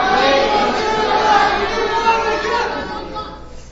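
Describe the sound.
A lively live audience shouting back the Islamic salaam greeting in unison: a dense, sustained roar of many voices for about three seconds, fading near the end.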